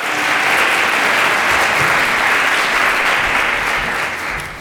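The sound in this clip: Audience applause welcomes two speakers at a chapel gathering: dense, steady clapping that holds at full strength throughout and tapers slightly at the end.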